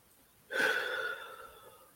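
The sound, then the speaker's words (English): A single deep breath taken during a guided breathing pause: a soft, breathy rush that starts abruptly and trails off over about a second and a half, faint and alone without talk. “Let's breathe. That was a lot. Let's take some deep breaths.”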